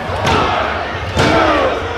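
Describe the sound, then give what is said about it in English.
Heavy slams from a wrestling match as a wrestler is driven down with a second-rope DDT: two hard, booming thuds about a second apart over a noisy, cheering crowd. “Huge second rope DDT!”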